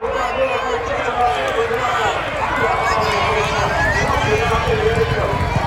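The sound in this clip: Horse racing at a racecourse festival in York: a continuous loud wash of rumbling hoofbeats and crowd noise, with voices talking over it throughout.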